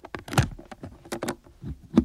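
Keys handed over to unlock a box give a few faint, scattered metallic clicks and jingles, short and irregular, with quiet rustling between them.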